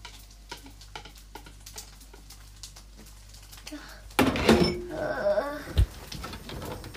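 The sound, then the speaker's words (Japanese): Food stir-fried in a pan over high heat: faint ticking gives way to a loud burst of sizzling and scraping from stirring that continues to the end, broken by one brief thud. “は結構強火とかでガッてやっちゃっていい印象だから、もう炒めていきます、がっつり。”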